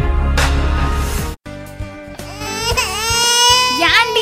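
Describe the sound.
Loud crying of a baby: sustained, strained wailing that breaks off briefly early on, then resumes with wavering, rising and falling cries.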